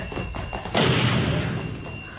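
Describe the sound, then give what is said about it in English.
A steel door in a corridor slams shut with one hard, heavy thud, followed by a long, slowly fading rumble after a few softer knocks. “Hey, what's that? It's a steel door. I'll run like hell before it closes.”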